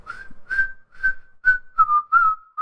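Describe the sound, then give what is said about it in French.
A man whistling a short tune as he leaves: a series of brief, bright, clear notes in a steady rhythm, the later notes slightly lower in pitch, with no talk over them. “Pis il s'en va. En sifflotant.”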